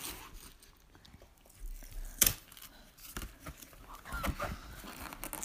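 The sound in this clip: Tearing open card packaging: faint scattered rips and crinkles, with one sharper, louder tear near the middle and a few more scratchy bursts afterward.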